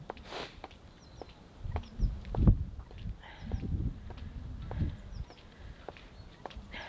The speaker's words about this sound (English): There's a bird singing, listen. You hear it? Sounds as if it's just above us, doesn't it?